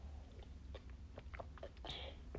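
Quiet gulps of drinking water, a few soft swallowing and wet mouth sounds spaced irregularly, with a slightly fuller swallow near the end.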